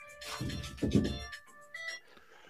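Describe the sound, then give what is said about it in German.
A mobile phone alarm rings with a brief electronic tone melody. It is fairly faint, swells briefly, then drops away after about two seconds. “das war mein Wecker.”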